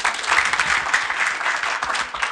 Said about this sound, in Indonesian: Dan untuk semua ibu-ibu serta bapak-bapak ini tepuk tangan dulu.